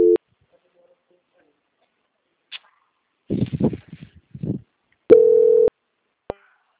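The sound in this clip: Telephone busy-signal tones: a steady mid-pitched tone cut off at the very start, then a second, longer half-second burst near the end. A short spoken word and a few clicks fall between the tones.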